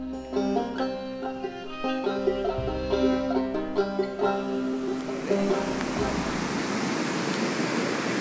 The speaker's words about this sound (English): this is the sound of the South St. Vrain River, which has, it looks like the Congo at this moment